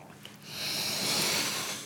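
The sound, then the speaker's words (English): Slow, audible breathing: a faint, airy rush of breath that swells through the middle and then eases slightly, with no talking over it. “And breathe.”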